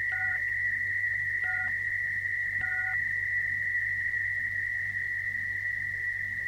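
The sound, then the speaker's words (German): Telephone keypad tones dial six three times: three short, evenly spaced two-tone beeps early on, over a constant high steady tone and a low hum. “Sie haben gewählt 6, 6, 6.”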